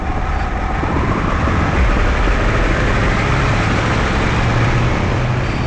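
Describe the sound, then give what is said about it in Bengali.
A constant, loud roar of highway traffic at midnight, with cars and big trucks rushing by. The rumbling hiss stays steady and dense for the whole clip, with deep engine drone underneath and no voices. “দেশটার বুক চিরে গাড়ির পর গাড়ি সাঁই সাঁই করে ছুটছে সর্বক্ষণ বিরামবিহীন, এমনকি এই মধ্যরাতেও।”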